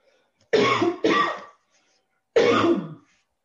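A person clears their throat in three rough, raspy bursts: two back to back, then a short pause before a third, with no speech.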